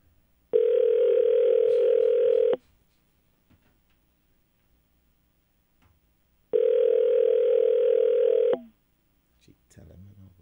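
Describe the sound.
Telephone ringing tone on a call to a magistrate court: two long, steady, mid-pitched buzzing tones of about two seconds each, separated by silence. A voice begins faintly at the very end.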